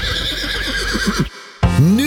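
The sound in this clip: A harness racing horse at Skive Travbane whinnies loudly twice. A long, quavering neigh is followed by a brief pause and then a second shrill whinny that rises in pitch.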